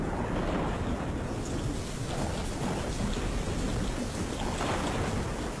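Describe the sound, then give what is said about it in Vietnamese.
Heavy rain pattering against window glass during a thunderstorm, with a low rumble of thunder beneath a continuous, even roar of falling water. “ở bên ngoài một tiếng sấm đinh tai nhức óc vang lên. Gió thổi ù ù, hất những hạt mưa va lộp độp vào cửa kính.”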